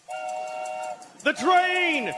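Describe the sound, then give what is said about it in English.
A steady, tonal train whistle blast sounds for about a second where a boxcar is being loaded, followed by a loud voice calling out over it. “The train!”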